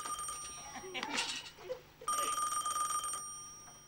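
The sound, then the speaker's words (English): Telephone ringing in a kitchen, two bursts of shrill bell-like ringing, the second longer, over a faint steady hum. “Startled by the phone, she runs into the kitchen.”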